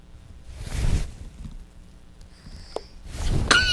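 A sneeze bursts out sharp and noisy near the end. It follows an earlier breathy rush and a brief high squeaking tone, with quiet moments between them.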